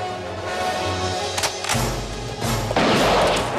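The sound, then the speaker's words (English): Gunshots in a western film as a rider fires from a mountain vantage point at a pursuer. A few sharp, loud bursts cut through a sustained tonal background. “From a vantage point, Chavez shoots one of Garrett's men.”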